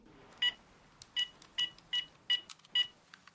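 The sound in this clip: Telephone keypad tones as a number is dialed, six short clear beeps at slightly uneven intervals over a faint background hiss.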